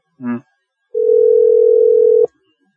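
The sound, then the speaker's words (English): Telephone dialing out on a call: a short buzzy blip comes first, then after a pause a single steady tone holds for over a second and stops abruptly, leaving silence. “It's dialing.”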